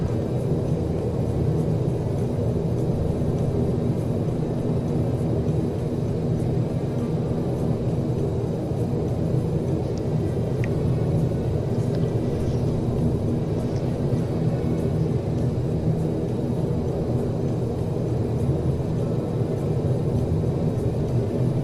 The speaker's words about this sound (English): Wow, that was a rough landing. It did not sound like it reduced the speed at all.